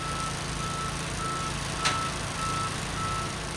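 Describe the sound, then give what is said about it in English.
Construction trucks and backhoes hauling debris from old buildings in downtown Detroit: a steady low engine rumble with a faint, thin high tone and one brief sharp clank midway. “Backhoes and trucks are hauling debris from forgotten buildings. Cranes are placing the beams for new structures.”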